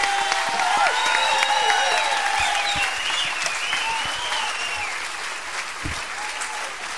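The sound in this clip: Loud audience applause welcoming musicians onto a stage, a steady dense wash of clapping with a few bright whistles riding over it, easing slightly toward the end.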